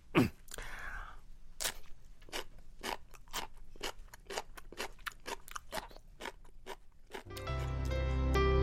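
Crunchy chewing of pickled radish, many crisp bites and chews in a steady, even rhythm, each a sharp, bright crunch at moderate loudness, with no talk over it.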